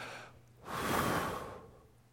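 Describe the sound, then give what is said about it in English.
A voice imitates a single long breath out, like Christ breathing on his disciples: a soft, breathy rush of air that swells and fades over about a second, with no words. “And when he breathed into Adam, that was when Adam became a living being. And when he breathed on them and said,”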